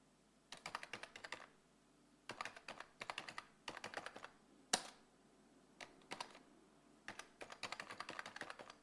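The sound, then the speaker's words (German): Typing on a computer keyboard, soft rapid keystrokes in short bursts separated by brief pauses, with one sharper key strike standing out, quiet and alone. “Tasten. Tippen, Tastatur. Tippen, tippen.”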